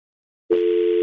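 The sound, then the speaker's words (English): A telephone dial tone is heard after a caller drops off the line. A steady, unbroken tone starts abruptly after half a second of silence and holds at an even pitch and loudness to the end. “It sounds oddly a lot like a dial tone.”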